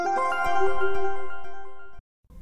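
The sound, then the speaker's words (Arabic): A mobile phone ringtone plays a bright electronic melody of several quick notes for about two seconds, then cuts off abruptly before a short burst of faint noise. “الاتصالات. الدرس الأول. الهاتف الجوال.”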